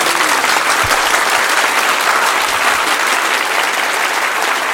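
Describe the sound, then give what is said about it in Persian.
An audience claps on request during a sung religious recital, a steady, dense burst of applause lasting a few seconds, with no voices over it. “یه کف خوشگل بزن.”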